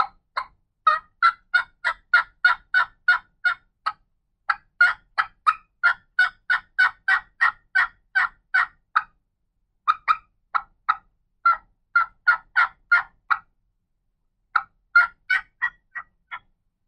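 A worn, ragged turkey mouth call worked in soft yelps and clucks: many short, raspy notes in rhythmic runs broken by brief pauses, clear and unaccompanied.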